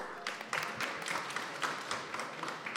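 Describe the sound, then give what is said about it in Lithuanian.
Audience applause at a cybersecurity event, a dense, steady wash of many hands clapping that holds evenly through the whole clip without voices standing out. “Paplokime. Aplausos.”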